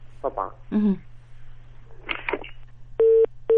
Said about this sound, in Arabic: طب معلش الخط اتقطع